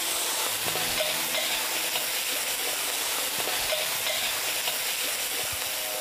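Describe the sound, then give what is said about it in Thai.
Garlic fries in hot oil in a dish with pickled mustard greens, giving a dense, continuous sizzle with faint stirring clicks that holds at an even level throughout, with no talking. “ใส่กระเทียมลงไปเจียวกระเทียมกับน้ำมันครับจากนั้นใส่ผักกาดดอง”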